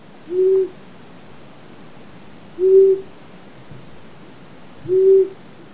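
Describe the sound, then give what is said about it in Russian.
A long-eared owl calls three times: low, short hoots at a steady pitch, evenly spaced about two seconds apart over a faint hiss. “Ушастая сова.”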